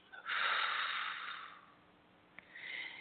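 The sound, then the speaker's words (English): A deep, slow exhale during a guided relaxation breathing exercise. A long breathy rush of air lasts about a second and fades, then a softer breath sound follows. The sound is faint overall. “Let's inhale. We need to be really relaxed for this show. Exhale.”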